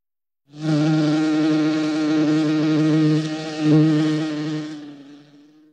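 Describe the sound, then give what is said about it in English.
Insect buzzing: one continuous, loud buzz lasting about four seconds, holding a steady tone with a slight swell near the end before cutting off. “Buzz.”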